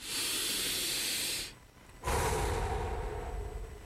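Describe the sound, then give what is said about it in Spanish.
A deep breath: a long airy hiss, a brief near-silent gap, then a second, fuller breathy rush that fades slightly toward the end. “Detenete, respira profundo.”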